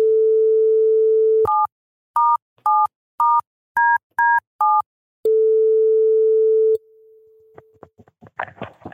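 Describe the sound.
Placing a telephone call: a steady dial tone, then a quick run of beeping keypad digits, then the dial tone again. Faint clicks and crackling follow, with no voice.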